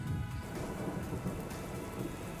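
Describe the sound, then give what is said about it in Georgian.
Heavy tropical rain pours in a continuous, even hiss with a soft low rumble underneath. The sound stays fairly quiet and unbroken, and no voices are heard. “რომ ნახოთ როგორ წვიმს, ნამდვილი ტროპიკული წვიმა.”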